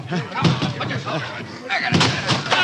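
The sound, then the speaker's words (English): A door is broken in during a dramatized scene, with heavy slams and thuds partly under people talking. The blows land in a few loud bursts against the voices. “Break in the door.”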